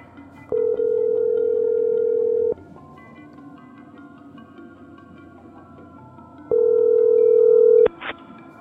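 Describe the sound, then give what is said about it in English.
A telephone dial tone sounds in two long, steady stretches separated by a few seconds of low background hum, and the second stretch ends in a brief burst of dialing tones as a call is placed. “I'm gonna call Mario back, find out what happened to him.”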